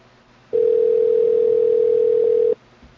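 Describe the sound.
Telephone dial tone after the caller hangs up: one steady, unwavering tone that starts and stops abruptly and lasts about two seconds, with faint hum before and after.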